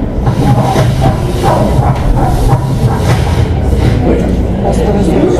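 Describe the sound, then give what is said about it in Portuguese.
A locomotive passing by: a loud, steady low rumble with a rhythmic clatter of wheels and a hiss on top that lasts throughout. “Já passa uma locomotiva.”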